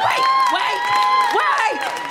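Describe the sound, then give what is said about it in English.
Audience clapping and cheering, with high whoops and shouted voices rising and falling above a dense, loud din that holds steady throughout. “Wait! Don't clap me!”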